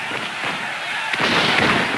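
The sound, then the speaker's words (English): Rumbling, crackling artillery explosions on a battlefield as Confederate troops charge, a dense continuous roar that grows louder and more crackly partway through. “the Confederates charge through artillery explosions”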